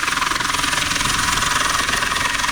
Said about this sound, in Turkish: Denizde mahsur kalan iki kişi helikopterle kurtarıldı.